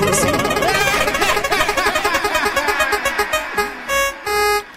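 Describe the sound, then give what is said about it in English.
A game-show prize wheel spins with rapid, tonal ticking pulses that steadily slow and spread apart, then end in a couple of longer sustained tones. “All right, I'm going to spin the wheel to find out what our next episode shall be, and now I'm spinning it.”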